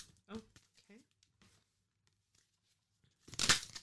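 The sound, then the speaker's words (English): Tarot cards being drawn and handled make a short, loud papery rustle near the end, after a mostly quiet stretch with a few soft, brief sounds. “Just getting more cards.”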